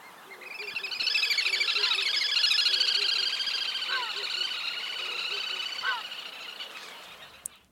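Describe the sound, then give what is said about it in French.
Little grebe song, a long, high-pitched, whinnying trill of rapid identical notes that swells in loudness and then slowly fades away. “Série de notes identiques comme le grèbe castagneux,”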